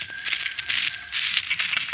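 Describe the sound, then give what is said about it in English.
A telephone ringing: a bright, metallic bell trill that rings steadily and rapidly throughout, with no voices over it. “And then the telephone rang.”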